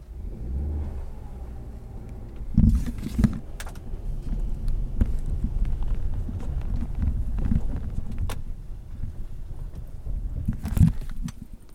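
A car engine rumbles low and steady as the car pulls forward up a snowy driveway salted in front of its tires after its wheels had been spinning, heard from inside the car in rural Maine, with scattered clicks and crunches.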